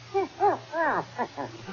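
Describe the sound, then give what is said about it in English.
A dog barks in a few short, tonal, arching yelps of moderate loudness, evenly spaced and alone without talk. “Oh, it's only a dog.”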